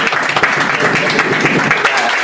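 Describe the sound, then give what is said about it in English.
Audience applause in a steady, dense burst of clapping at fairly loud level, sustained evenly for a couple of seconds without pauses. “Can we all clap it up?”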